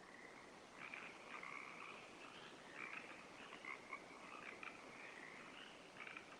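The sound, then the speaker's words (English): Frogs call back and forth in a steady chorus of many quick, bright croaks that overlap throughout, faint and without any talk. “I'm hoping you can hear the frogs in the background calling to each other.”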